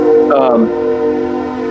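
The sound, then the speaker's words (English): A train horn sounds close by a house in Nashville, a loud sustained tone with stacked harmonics that holds steady throughout, with brief talk over it early on. “Sorry about the train. It's practically on top of our house where I live.”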